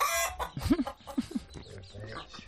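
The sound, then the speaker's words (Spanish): Hens clucking in a henhouse, a few short, soft clucks in quick succession over a low, murmuring background. “a este granjero, escuchadle pasando lista a su gallinero”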